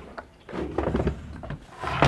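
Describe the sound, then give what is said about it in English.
A wooden dresser drawer slides open with a short scrape, followed by soft rustling and knocking as its contents are searched for old photographs. The sounds are fairly quiet and uneven. “digs into a dresser drawer for some old pictures that she says are still too painful to keep out”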